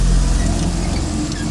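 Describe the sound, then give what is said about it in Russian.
A truck drives along a riverbank, its engine a steady, loud, low rumble with broad road noise that holds evenly throughout. “Вдоль берега реки едет грузовик.”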